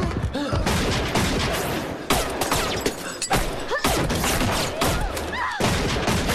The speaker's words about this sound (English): Everyone apart from Sam is shot down.